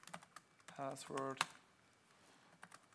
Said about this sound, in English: Let me type in a password.